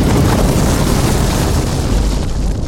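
A bomb explosion rolls out as a loud, deep, sustained rumbling roar with no quiet gaps.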